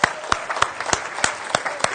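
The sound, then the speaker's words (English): Audience applause for race runners standing up at a morning gathering; many hands clap steadily, with regular sharp accents cutting through a continuous wash of clapping. “So if you ran, can you just stand up for a moment? Because we should clap these guys, first of all, because this is quite amazing.”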